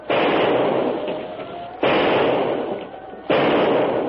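Gunshots are fired at a crocodile swimming in a river. Three loud, sharp blasts come at spaced intervals, and each is followed by a long, decaying roar.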